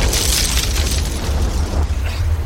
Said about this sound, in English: Did somebody drop a bomb on us or something?